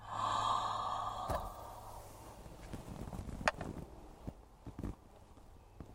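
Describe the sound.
Breathing in and out through the mouth during a stretching exercise of reaching down and sitting back up. A few audible sighing breaths come with soft rustles and light knocks, with no talk.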